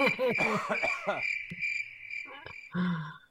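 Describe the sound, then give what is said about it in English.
A crickets-chirping sound effect plays as a steady, high-pitched trill while people talk over it, then fades near the end. “That was just nothing but crickets there.”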